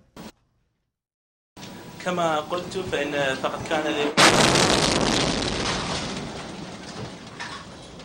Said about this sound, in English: A rocket exploded just 50 yards away from the meeting.